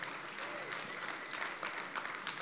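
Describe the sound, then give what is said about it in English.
An audience applauds during a church service, a busy patter of many hands clapping at once, fairly faint and continuous with small irregular peaks. “Come on, let's cheer to that. Let's give a celebration of that.”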